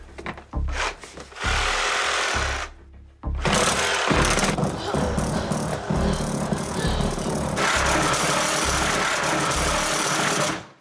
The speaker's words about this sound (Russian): Она не прорежет дверь. Нет, черт возьми, это же суперпила. Значит, она пилит все.